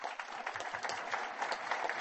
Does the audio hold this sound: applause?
yes